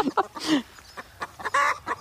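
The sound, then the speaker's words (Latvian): A hen cackles after laying an egg, giving a rapid run of loud, sharp clucks and squawks, with one longer drawn-out squawk near the end. “ko tā pēkšņi sāka gāgināt? Tad izdēta ir ola.”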